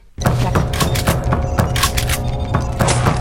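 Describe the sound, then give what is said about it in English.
A grenade explosion in a video game: after a brief quiet moment a loud blast bursts in abruptly, then a heavy, sustained rumble with repeated crackling bursts continues to the end. “Let me try a grenade this time.”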